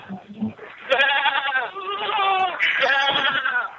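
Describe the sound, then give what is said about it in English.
Sheep bleating, a run of loud, wavering cries that overlap one another for about three seconds. “You're prettier than those sheep. I don't know about it being as tight as those sheep.”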